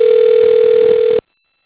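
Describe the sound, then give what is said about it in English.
A steady telephone tone sounds as a call is placed through the phone network to the American Samoa time line. It holds at one even pitch, loud and unbroken for just over a second, then stops abruptly. “So I'll dial it up as it whizzes through the phone network to American Samoa. We'll get the time in a couple rings here.”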